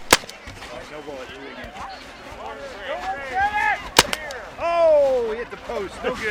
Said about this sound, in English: No actual guns were used. They were just paintball guns. How accurate were the paintball guns? Terribly inaccurate.